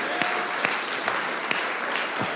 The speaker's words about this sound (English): could we just give a round of applause to all the moms who are in here this morning?